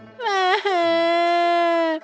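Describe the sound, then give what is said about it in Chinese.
A young boy crying on a road, one loud sustained wail with a brief catch near the start, holding a fairly steady pitch before stopping abruptly. “周楚看见路上一位小男孩正在哭泣。”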